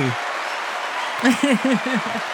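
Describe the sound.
A studio audience applauds in a steady wash of clapping, with a voice speaking over the latter half.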